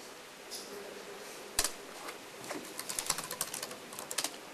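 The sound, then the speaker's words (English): Computer keyboard typing as a commit message is entered, with faint, irregular clicks that start sparse and become a quicker, denser patter toward the end. “Now I type in a commit message”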